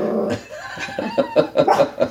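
A suspicious dog reacts as a mail carrier puts mail in the mailbox, letting out several short whining yips and barks that grow more insistent toward the end.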